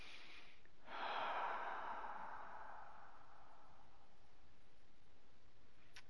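A single slow, comfortable breath taken with eyes closed during an emotional freedom tapping session, a soft airy rush that swells and fades over a couple of seconds against faint, steady background hiss, followed by quiet.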